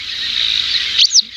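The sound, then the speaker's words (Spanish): A Montagu's harrier calls with a thin, high, sustained whistling note, then gives two short, sharp chirps at the end, loud and alone. “Y lo hacemos para conocer una historia de una pequeñita rapaz cuyo nombre tiene un doble sentido. Se llama Aguilucho Cenizo. Efectivamente. Tiene un doble sentido. ¿Será que es gris? Vamos a escucharlo. A ver, suena así.”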